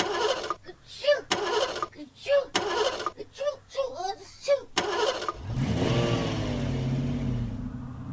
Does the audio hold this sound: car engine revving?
yes

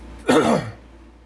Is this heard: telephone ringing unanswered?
no

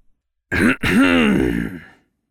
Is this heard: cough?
yes

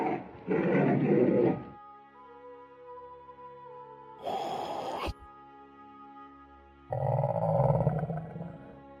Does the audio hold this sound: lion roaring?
yes

